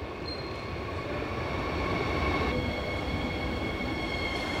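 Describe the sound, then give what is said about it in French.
A night train arriving at Berlin station after a 13-hour overnight run. There is a steady low rumble of wheels on rails with thin, sustained high-pitched wheel squeal layered above, swelling slightly louder midway and then holding. “Il est 7 heures du matin, le train arrive en gare de Berlin après avoir roulé 13 heures.”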